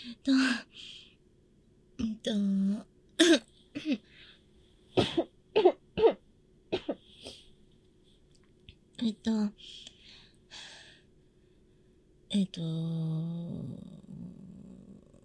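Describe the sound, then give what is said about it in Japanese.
Coughing and throat clearing after choking on a banana pushed deep into the throat, a series of short, harsh bursts separated by quiet pauses, ending in a longer strained sound. “喉の奥まで入れるのやっぱりむせたかなって思う”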